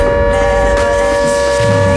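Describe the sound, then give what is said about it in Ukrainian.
An air raid siren sounding during an alert: one loud, steady, unwavering tone over low hum, holding the same pitch throughout. “Увага! Увага! Повітряна тривога триває.”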